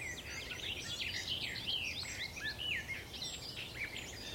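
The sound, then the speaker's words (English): A garden warbler sings a throaty, rambling song of quick warbled phrases that run on without a break, over a steady hiss of background noise. “Very throaty song, that one. Trying to find the singer. Might be a garden warbler again.”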